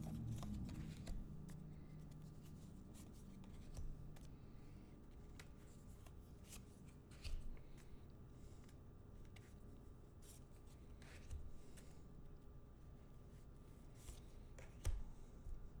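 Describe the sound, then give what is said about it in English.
Tarot cards are laid down on a table during a reading: faint, scattered soft taps and papery slides spread out over a quiet stretch. “Putting down cards.”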